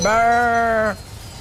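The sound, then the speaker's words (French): A person imitating a ewe calling for her lamb, voicing a single sustained nasal bleat of about a second with a steady pitch before it cuts off. “Tu vois, c'est quand tu cherches l'agneau, tu peux faire le bruit de la maman comme ça. Comme si t'étais la mère, tu l'appelles.”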